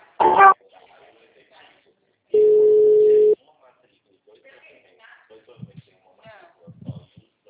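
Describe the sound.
A steady electronic ringback tone sounds while a phone call is transferred. A short blip comes first, then one even, level tone lasting about a second, followed by quiet with faint low sounds.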